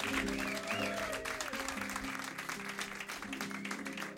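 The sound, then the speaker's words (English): Audience applause welcoming a band on a live lunchtime radio show, dense, steady clapping that fills the whole stretch and eases slightly toward the end. “Let's give them another warm live lunch welcome.”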